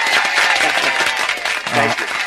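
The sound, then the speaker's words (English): Applause from a crowd, dense steady clapping that holds at an even, loud level for the whole couple of seconds with no pause. “I'm going to give you the applause of the day”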